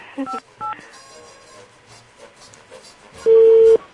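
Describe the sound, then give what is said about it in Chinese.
Telephone busy signal: two short keypad dialing tones at the start, then a low hum, then a single loud, steady busy tone near the end. “The number you have dialed is busy. Please stay on the line.”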